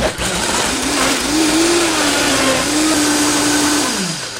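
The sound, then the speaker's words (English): A blender with a 2.5 horsepower motor pulses a spice rub, giving a loud, steady roar with a high whine that wavers slightly in pitch before the motor winds down with a falling tone. “Let the beauty of the 2.5 horsepower motor do its work. So now I'm going to take the rub that we just blended together”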